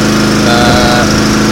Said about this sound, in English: and that noise you can hear is a generator.